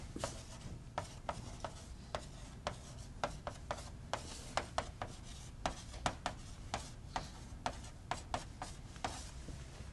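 Writing on a board: many sharp taps and short scratching strokes in an irregular rhythm, faint and with no talk.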